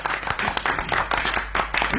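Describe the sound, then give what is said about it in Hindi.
Children clap at a show, urged to clap louder for a performer called Nagraj: many quick, sharp claps in a steady patter with brief dips between bursts. “बच्चा लोग जरा जोर से ताली बजाओ कि नागराज मस्त होकर मूड में आ जाए। कुछ खास मजा नहीं आया, जरा और जोर से बजाइए।”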